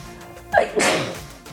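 A single sharp human sneeze bursts out after a brief rising intake of breath, loud and explosive, then trails off into a quiet background.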